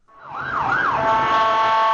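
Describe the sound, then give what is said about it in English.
An ambulance siren wails through city streets after a car bombing in Baghdad. Its pitch sweeps up and down twice, then settles into a loud, steady, held tone, with no voices. “Yet again, the streets of Baghdad echo with the wail of sirens as ambulances rush to help victims of another car bombing.”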